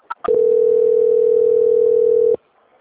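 Telephone tone while a call is transferred: two brief blips, then one loud, steady mid-pitched tone held for about two seconds before it cuts off abruptly into near silence.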